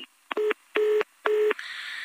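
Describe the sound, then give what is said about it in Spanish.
Three short telephone dialing beeps, each a steady electronic tone with brief gaps between, followed by a continuous higher line tone as a call is placed again. “¿Le vuelves a marcar? Ah, sí, no, no. Eso de que nos lo corten desde la línea.”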